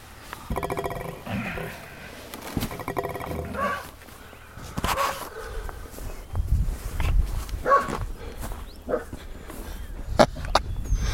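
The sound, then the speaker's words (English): A dog vocalizing outdoors in the cold, wanting to be let inside: rough grumbling noises and whines of varying loudness, scattered among faint background rustling and thuds. “Let's just see what this dog's talking about.”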